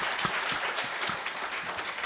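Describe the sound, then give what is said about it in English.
Applause from a church audience during a service, dense steady clapping that holds at an even level for about two seconds without a break. “that's okay if you want to clap for that. Amen.”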